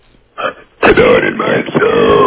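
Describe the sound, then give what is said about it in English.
A woman talks while burping on command, producing a brief raspy burst followed by a long, loud, continuous stretch of low, gravelly burped speech. “We haven't had a good burp talker in a long time.”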